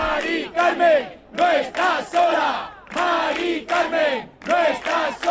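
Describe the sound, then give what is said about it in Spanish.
A crowd of about 400 protesters outside a house chants a short rhythmic slogan in unison, loud, the phrase repeated twice with clear pulses of voices. “lo que están escuchando son unas 400 personas que se encontraban fuera enfrente de la casa de Mari Carmen”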